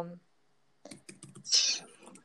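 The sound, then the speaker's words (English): Typing on a computer keyboard by someone trying to type while talking: a voice at the start, then a quick run of light key clicks in irregular bursts, with one louder, busier cluster near the end. “I am attempting to type at the same time as talking.”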